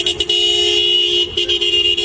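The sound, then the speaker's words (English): A white Toyota SUV's car horn honks at a gas station, a loud, steady, mid-pitched blare held for about two seconds and broken by a couple of brief gaps. No talking. “He came to collect his white Toyota SUV from the Orion gas station on Atlantic Boulevard and Northeast 1st Street. Gas cap opened. Questions from reporters, honked his horn, and sped off.”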